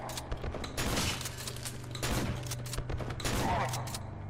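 Gunfire in an old shooter video game, faint bursts of rapid shots recurring a few times at an uneven rhythm.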